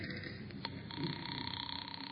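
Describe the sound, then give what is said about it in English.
A telephone bell rings as a vintage comedy sound effect, a rapid rattling trill over a steady hum with no talk, continuing to the end. “I got a phone number here that he... I'll bet I'll find him there. Here it is. Mary, hand me the phone.”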